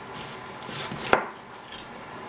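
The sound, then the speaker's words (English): A knife slices onions thinly for a nihari garnish. One sharp, crisp cut stands out clearly, with fainter cutting strokes before and after it over a soft background hiss. “what I'm going to do with these onions is I'm just going to slice them up thinly.”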